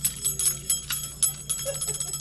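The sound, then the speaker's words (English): Bells ring at a tax preparation site where volunteers celebrate people saving part of their refund: bright, quick strikes repeat many times in an uneven rhythm at moderate loudness. “Here you not only get bells and cheers”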